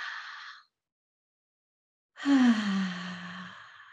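A deep belly breath: a brief audible inhale, a silent pause, then a long exhale through the mouth with a low voiced sigh that sinks slightly in pitch and slowly fades.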